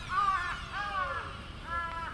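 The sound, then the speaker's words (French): A crow caws in a few harsh, hoarse calls with short pauses between them, over a low rumbling background. “Forcément, il y a eu le corbeau en même temps, quoi.”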